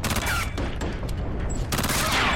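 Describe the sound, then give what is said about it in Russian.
Rapid submachine gun fire from a PPSh aimed at a tank crew climbing out of the turret: a dense, loud, continuous burst of overlapping cracks that fills the whole clip, with short dips in intensity along the way. “Шемякин с ППШ подбегает к танку, стреляет в выбирающихся из башни танкистов.”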